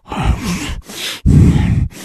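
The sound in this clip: A voice imitates heavy snuffling breathing, producing a few rough, grunting bursts of breath in an uneven rhythm, with short pauses between them.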